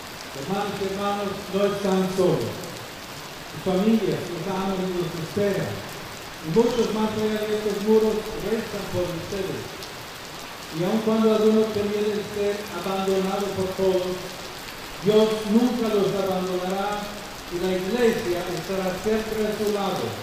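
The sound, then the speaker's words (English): Heavy rain falling during an outdoor gathering: a steady, dense hiss running throughout beneath loud voices singing or chanting in sustained phrases with short breaks. “Referring to the rain that came down heavily during the meeting”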